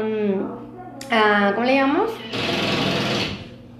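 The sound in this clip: Neighbours run a power drill in an office building at night, a whirring, buzzing drone heard under a talking voice, swelling into a louder, harsher grind toward the end.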